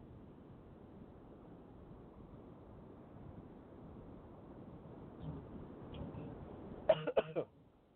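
Short coughing from a tickle in the throat: a few quick, sharp coughs come near the end over a steady, rushing wind-like noise.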